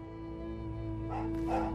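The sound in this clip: Sled dogs yip and bark as they are driven, giving a few short, high calls near the end. The calls rise faintly over a steady low droning tone.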